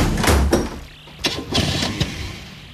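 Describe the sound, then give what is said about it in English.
Motorbike engine with a sidecar starting up: a few loud, sputtering bursts rise over a steady, rough rumble as the engine catches. “I'll take the bike. I'll just open this window so you can hear the sound effect of the bike, obviously, in the soundproof studio.”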